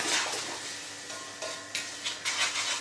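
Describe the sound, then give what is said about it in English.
Semolina being stirred into boiling water in a pot gives a faint, steady hiss of bubbling, broken by a few soft swishing and scraping strokes of the stirring. “Because now, when we add semolina and stir everything nicely,”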